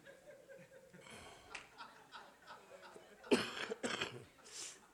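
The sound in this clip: Coughs rise from a church audience during a sermon: a few sharp, throaty bursts stand out amid murmuring voices and shuffling.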